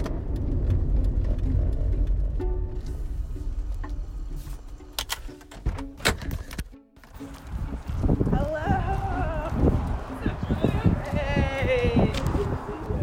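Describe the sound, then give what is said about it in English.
A car driving on roads around Mount Rainier, with a steady low road rumble and engine drone through the first half, then scattered clicks and knocks while a voice talks over the noise. “I'm driving to pick up Benjamin right now, and it is like the most gorgeous day ever to be driving around Mount Rainier.”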